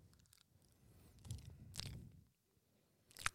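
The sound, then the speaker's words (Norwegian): Smacking and chewing as a banana is eaten: soft, wet mouth sounds in an irregular run, with a few sharper clicks near the end. It is faint throughout, with no talking. “jeg liker den smattingen. Det er god radio.”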